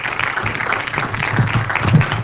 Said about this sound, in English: And I'd like you to welcome tonight Dr. Edward Dalcour. Give him a hand.